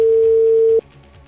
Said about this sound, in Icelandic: þá ringi ég bara í þennan mann